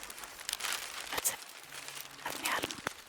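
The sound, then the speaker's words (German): Newspaper or paper rustling and being folded, a few short crinkling bursts separated by brief quiet gaps. “eine Zeitung oder Papier, es wird auch gefaltet oder es raschelt, eine Tür”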